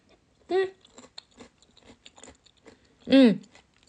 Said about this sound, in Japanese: 美味しい。人参くんも、いただきます。